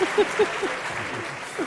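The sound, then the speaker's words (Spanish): Applause on a sports talk radio show: a short, steady hiss of clapping lasting under two seconds, with a few brief voiced sounds breaking over it. “Aplauda.”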